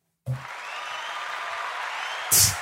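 Studio audience applause starts abruptly as a steady wash of clapping. It holds at an even level for about two seconds before a short, louder burst at the end.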